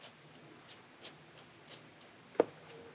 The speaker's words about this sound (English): This is how I'd cut green onions, okay? I cut it like that